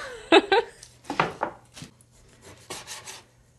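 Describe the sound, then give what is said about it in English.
A knife slices food into thin pieces for a Hunanese dish, making a series of short, scraping cuts in irregular bursts. The cuts are fairly quiet over a low steady hum. “Cutting it into thin slices here.”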